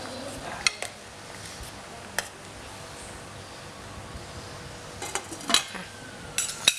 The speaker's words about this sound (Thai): แล้วก็ใส่น้ำปลาลงไปเลยนะคะคนให้เข้ากัน